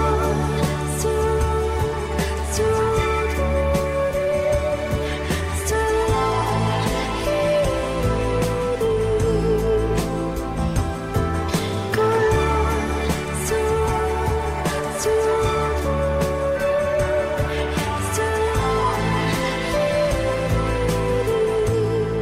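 A dreamy pop song from a new album plays continuously, with sustained melodic lines over a steady beat and layered instrumentation.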